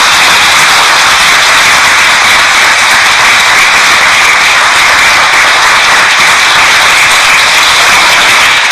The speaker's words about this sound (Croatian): Opet sam malo znati željan, je li to pljesak misionaru ili Božjoj riječi koju je navještao, ili jednome i drugome.